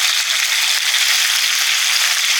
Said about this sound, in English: So we're just going to fry this off just to get rid of some of the moisture and give it a nice texture. So we're going to start with a tablespoon of oil.